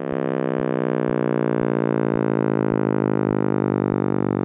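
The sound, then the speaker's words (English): A synthetic simulation of the universe expanding after the Big Bang, made by a University of Washington physics professor: a dense, buzzing harmonic drone whose pitch slowly slides lower, with regular low throbs pulsing about every half second. “That noise is assimilation by University of Washington physics professor emeritus John Kramer of what the universe may have sounded like as it expanded after the Big Bang.”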